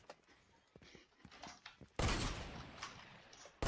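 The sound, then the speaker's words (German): Sniper rifle gunfire in a video game: a few sharp, faint reports, then a sudden loud, dense burst of noise that holds to the end. “Sniper, Sniper. Mann, ist Sniper.”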